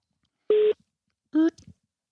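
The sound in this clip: Telephone tones as a call is dialled: two short, buzzy, flat-pitched beeps, each about a quarter second long, separated by a pause of just over half a second.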